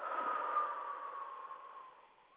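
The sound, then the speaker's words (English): A slow, deep breath exhaled in a soft, airy rush that stays alone and gradually fades over about two seconds. “Take another deep breath and exhale”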